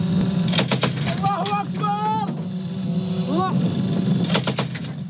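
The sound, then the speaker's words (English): Gunfire from pro-Ankara Syrian rebel fighters holding positions in the Tal Malid area north of Aleppo: sharp clustered bursts of shots at the start and again near the end, with voices talking in between over a steady low rumble. “That's the sound of guns from pro-Ankara Syrian rebel fighters holding positions Saturday in the Tal Malid area north of Aleppo.”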